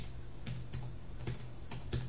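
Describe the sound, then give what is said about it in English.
Typing a password on a computer keyboard: a handful of sharp, irregular keystroke clicks over a steady low hum, with no talk. “Enter password for account root, okay. And I'll bang that in. It won't show as I type it.”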